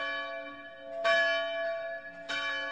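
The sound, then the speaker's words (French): A church bell rings in the countryside, with two loud strikes over the sustained, humming resonance of earlier strokes and rich metallic overtones. “quand nous sommes à la campagne, nous entendons à une heure régulière des cloches”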